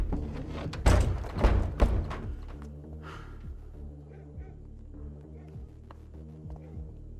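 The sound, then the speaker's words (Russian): A door being broken down, heard as three heavy, booming thuds in close succession near the start, followed by a low, lingering hum. “Выломав дверь, к Нине зашли сыщики.”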